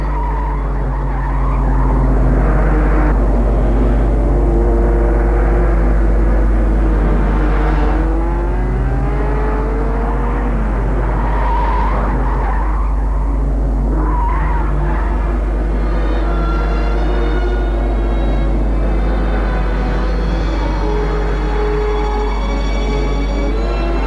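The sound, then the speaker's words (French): Car engine roaring loudly and steadily while a blindfolded driver keeps driving, with wavering squeals of skidding tires over the continuous drone and no talk. “pour le pauvre Henri, il continue à conduire les yeux bandés. Oui, continue à conduire, les yeux bandés.”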